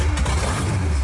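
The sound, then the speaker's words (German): Engine of a 1937 Plymouth, a vintage American car, running with a steady, low, rumbling drone throughout a brief moment with no voices. “Das ist der Sound von einem amerikanischen Oldtimer, einem 37er Plymouth.”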